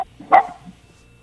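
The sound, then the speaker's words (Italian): A dog gives one short, sharp bark, fairly loud and alone, with quiet before and after it. “scusate gli ascoltatori, sentite i cani che abbaiano”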